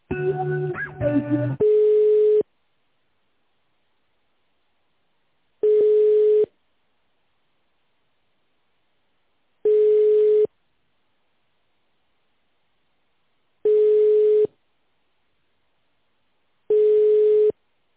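Telephone ringback tones while a call is being transferred to a bank's credit department: a quick burst of mixed dialing tones, then five steady single-pitch tones, each under a second long, spaced about four seconds apart with silence between.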